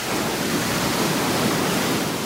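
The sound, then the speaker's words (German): Ocean breakers crash far below a road on a western coast against shiny black basalt columns. They make a dense, continuous roar of surf with no separate wave crashes standing out. “An der Straße in den äußersten Westen krachen tief unten Brecher gegen schwarzglänzende Basaltsäulen.”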